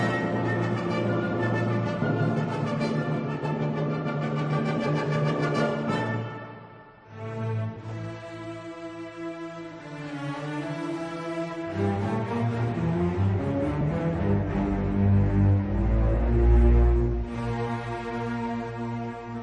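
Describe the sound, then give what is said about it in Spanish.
Slow orchestral symphony movement, unhurried and legato, with sustained harmonies that dip briefly in volume early on, then build into fuller, swelling passages. “y vamos a escuchar el largo de esta misma sintonía, que suena así, de esta misma sinfonía.”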